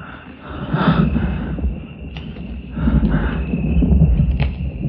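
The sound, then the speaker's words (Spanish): Heavy breathing, mistaken for the sound of rain, comes as slow, rough, hissing breaths that swell and fade a few times, with a snorting, wheezy texture. “Oye, su respiración. Creí que era la lluvia.”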